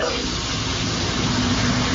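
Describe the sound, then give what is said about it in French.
A shower runs with a steady, even hiss of falling water that stays at a constant level throughout, with no voices. “Bah ouais, là, je suis sous la douche, donc je peux pas répondre”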